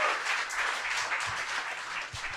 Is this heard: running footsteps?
no